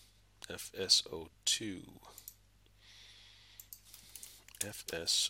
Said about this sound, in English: I'm going to click Next. And I'm going to type in FS02.